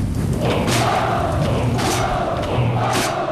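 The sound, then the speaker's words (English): Soldiers bang their shields in three heavy, evenly spaced thuds over a sustained roar of massed shouting voices. “The commanding officer raises his arm, and the soldiers bang their shields.”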